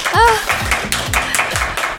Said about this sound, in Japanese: あ、拍手いいのか。